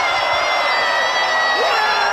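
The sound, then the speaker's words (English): A crowd cheers and whoops at the annual Gloucestershire cheese rolling race, where competitors chase a wheel of cheese down a hill. The roar is dense and continuous, with bright shouts rising out of it. “That's the sound of more than two dozen crazy people chasing a wheel of cheese down a hill. Yes, the annual cheese rolling competition happened”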